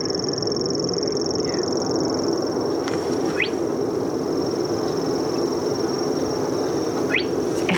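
A grasshopper warbler reels at night, far off, a faint, unbroken high-pitched trill running through the whole stretch over a steady low background hiss, with a few brief rising chirps.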